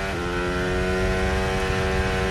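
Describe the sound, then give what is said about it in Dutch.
Onboard engine sound from Kimi Antonelli's Mercedes Formula 1 car on its first lap, a loud, sustained high-pitched whine with steady pitch throughout. “Omboordgeluiden. Althans, die proberen ze. Ja, daar zijn ze. Uit de auto van Kimi Antonelli.”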